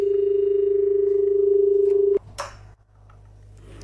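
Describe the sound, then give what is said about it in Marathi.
A telephone line tone during a phone call: a single steady, loud tone that holds for about two seconds, then cuts off abruptly and leaves faint line noise. “आपण एक phone घेऊया. Hello hello hello.”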